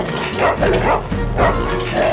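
A dog barking as it leaps out of a sack and chases after a fox: a few loud, rough barks in quick succession over a busy, continuous background.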